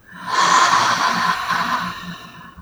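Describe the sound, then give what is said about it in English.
A deep breath during a guided breathing exercise with chest tapping: one long, loud, airy rush of breath that swells quickly, holds steady, and fades gently near the end. “exhale, inhale, exhale,”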